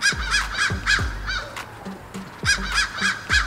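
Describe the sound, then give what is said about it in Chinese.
Crows give harsh, hoarse caws in a rapid series, a cluster of loud calls, then a quieter pause, then another burst of several caws, each call sharp and raspy. “他也发布过这样一段录像，是一些疑似乌鸦语的解读。注意听，有三种声音”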